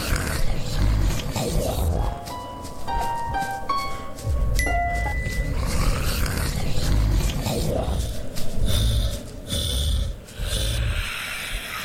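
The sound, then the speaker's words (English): A power-up sounds in an endless-runner video game as a quick run of short electronic beeps stepping upward in pitch, set over a steady rumbling game background that continues after the tones stop. “Do you hear the new sound? It's a power up. Try to collect it.”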